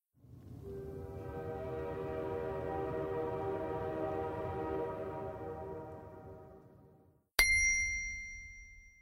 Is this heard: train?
yes